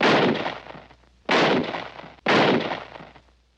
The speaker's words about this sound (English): Shot him as he was trying to run away.